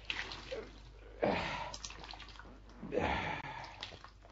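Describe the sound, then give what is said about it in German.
Water splashing and dripping as a cloth rag soaked full of water is wrung out by hand, with two louder wet bursts and trickling drips between them. “Und jetzt ist der Lumpen so voll Wasser, dass er kein bisschen Wasser mehr schlucken kann. Ja, ist ja schön. Gib her, dann wind ich ihn aus.”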